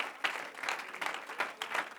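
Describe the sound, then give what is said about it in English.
A church audience clapping during a service, a steady run of rhythmic claps, fairly faint, with no voices standing out. “Wasn't much shouting just then. A lot of clapping.”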